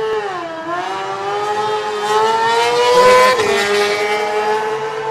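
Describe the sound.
A Suzuki race car pulls away with a loud, harmonic-rich engine note that dips briefly, then climbs and holds a strong, steady whine as it accelerates off from the start, with no voices over it.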